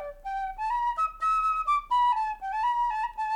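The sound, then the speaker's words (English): A penny whistle, a small end-blown flute, plays a short tune. Its clear, bright, breathy notes step up and down in a lively run, fairly soft and alone with no talk. “I play penny whistle. I have over a dozen of them. I got one right here.”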